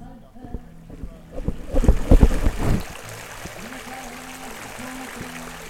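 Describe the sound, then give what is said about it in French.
Water at Ars, rushing and sloshing in a swelling burst that peaks mid-clip and then fades back to a steady low background. “Je crois que c'est de l'eau. C'est de l'eau, effectivement”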